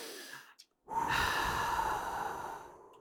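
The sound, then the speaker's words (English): Long breath drawn in, a steady airy hiss of about two seconds following a brief breathy sound and a short pause. “Just breathe in with me.”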